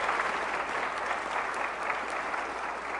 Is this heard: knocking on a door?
no

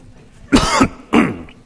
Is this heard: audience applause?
no

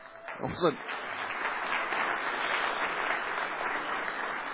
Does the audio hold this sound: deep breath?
no

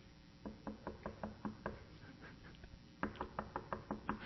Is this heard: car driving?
no

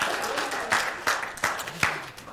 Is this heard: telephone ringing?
no

